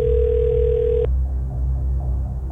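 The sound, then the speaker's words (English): A telephone line sounds a steady, loud single-pitched tone for about a second, then cuts off abruptly, leaving a quiet, faintly humming line. “I've hit dial.”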